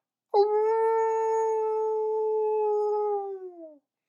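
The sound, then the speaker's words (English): A wolf howling from a tamarack swamp: one loud, sustained call of about three seconds, holding a steady pitch before it sags and fades out, heard alone. “Forty yards from us, down in that tamarack swamp, wolves are howling at us. And they continue to howl at us.”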